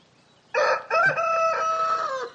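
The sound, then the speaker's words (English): A rooster crows once, an aggressive bird with spurs. The loud, strained call holds steady with a brief break near the start, then stretches on for nearly two seconds. It is heard alone, with no talk. “There's a rooster. He's a devil, I'm sure, but I go near him and he is at me with his spurs.”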